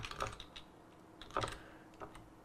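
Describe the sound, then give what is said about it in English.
A computer keyboard is tapped while a command is typed: a few sparse, soft key clicks separated by short pauses. “And then we'll type in express generator.”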